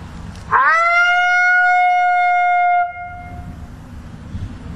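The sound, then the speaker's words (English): A human voice imitates a female lonesome howl, one long, smooth call that swoops up sharply at the start, then holds a steady, fairly high tone for about two seconds before cutting off, loud over a low background rumble. “and then I'll maybe go into just a lonesome howl. I can do maybe a female lonesome, so it's a little softer, a little higher pitch”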